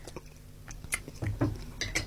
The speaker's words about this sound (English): And I'm chewing on a pop now, stuck in my teeth.